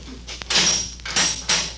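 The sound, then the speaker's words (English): A prison cell door being opened: a few broad, hissing scrapes in quick succession, separated by short knocks, moderately loud with no talking. “Get the cell door”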